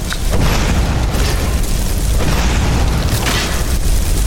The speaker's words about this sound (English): I'll only shoot one fireball at a time from now on.